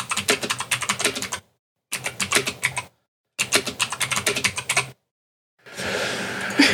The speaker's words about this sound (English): I can't type for shit. Hold on.